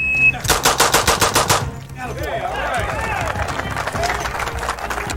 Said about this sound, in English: Look at the muzzle rise. Nothing. I'm sorry, but like, what the fuck, dude? 1 second. 1 second even. Eight shots.